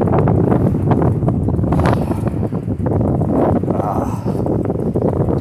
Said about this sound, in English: That's one thing I like about walking in wind is the sound it makes as it rushes past your ears.